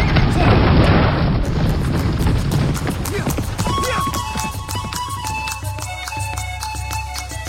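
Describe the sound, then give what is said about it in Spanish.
Horses' hooves clatter in a fast, dense run as riders set off at a gallop, beginning under a loud rumbling noise that fades, leaving quick, sharp hoofbeats that continue to the end. “a montar los caballos y nos vamos”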